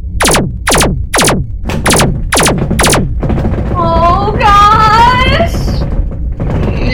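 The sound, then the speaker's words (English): Spaceship guns fire during a chase into atmosphere, a rapid series of loud blasts that each sweep down in pitch, followed by a warbling electronic tone. “Gunner, keep firing on the closest target.”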